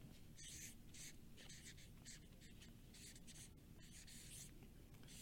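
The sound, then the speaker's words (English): Handwriting strokes, a run of soft scratchy bursts in quick uneven rhythm with short gaps between them, over a steady low background hum. “I'm going to write it a little smaller.”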